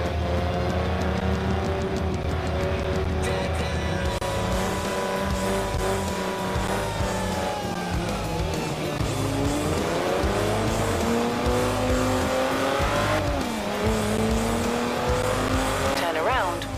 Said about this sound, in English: I'm just gonna like drive like most sports car drivers do.